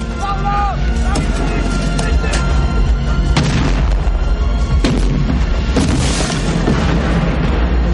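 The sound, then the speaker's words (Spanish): An explosion blows up an English artillery post in a 1992 adventure action film, heard as a loud, dense rumble with several sharp bursts over continuous roaring noise throughout. “Un puesto de artillería inglés salta por los aires.”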